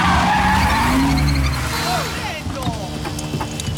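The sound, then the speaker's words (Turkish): Loud tyre skidding and squealing as a truck arrives on a one-way street beside the Vatican wall in Rome: a sustained harsh screech with wavering high squeals, easing slightly after about two seconds. “Ve bir kamyon geliyor.”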